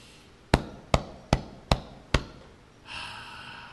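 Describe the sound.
Five sharp, even pats of a right hand against the center of the chest during a morning deep-breathing exercise, evenly spaced dull thumps, each decaying quickly.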